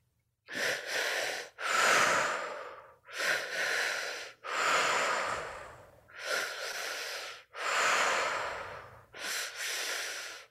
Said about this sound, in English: Keeping that breath moving in and out of the body, into the belly, up into the chest, out through the mouth.